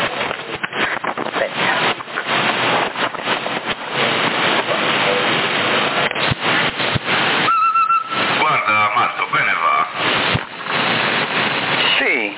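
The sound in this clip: Electronic chirp tones from a black handheld CB radio ring out as a brief run of warbling beeps midway through harsh, band-limited radio audio full of static and radio voices.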